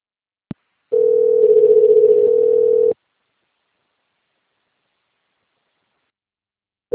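A voicemail beep on a phone call: a brief click, then a loud, steady mid-pitched electronic tone held for about two seconds, followed by silence until another identical tone begins at the very end.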